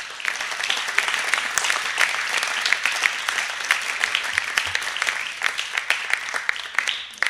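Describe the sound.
Applause from a church audience during a sermon: many dense claps in a steady, loud burst that thins out toward the end.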